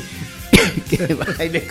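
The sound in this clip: A single sharp, loud cough from someone with a scratchy throat, followed at once by ongoing talk.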